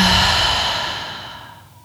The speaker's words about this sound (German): Atme hier tief durch die Nase ein und durch den Mund aus.